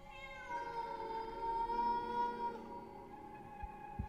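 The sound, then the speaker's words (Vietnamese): A cat sitting unafraid gives a single long, drawn-out, plaintive meow with a wavering, harmonic-rich tone. The cry is faint and heard alone. “Hòn đất bay qua, con mèo vẫn cứ ngồi ấy rừng rưng nhìn anh Lập đăm đăm, không hề sợ hãi. Lâu lâu nó kêu lên một tiếng đến xót cả ruột.”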